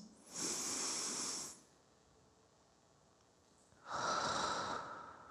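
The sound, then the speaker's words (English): Deep breathing exercise: two long, loud, airy breaths about two seconds apart, with near silence between them and no talking. “It is also right in this moment to breathe. Can you join me?”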